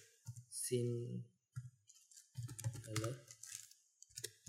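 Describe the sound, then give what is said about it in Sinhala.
Keyboard typing as Sinhala text is entered on a computer: light, scattered clicks sitting faintly beneath a person talking. “මෙතන type කරනවා. මෙතන මම type කරනවා මෙහෙම සිංහලේ”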